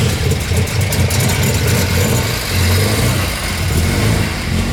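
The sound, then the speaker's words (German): The engine of a 1960s Italian car idles and revs with a steady mid-to-low rumble. The sound swells gently in loudness a few times, with no voices. “Wie ein solcher guter Sound für ihn klingt, zeigt er mir anhand eines Autos aus den 60er Jahren. Oder wie er sagt, italienisches Kulturgut.”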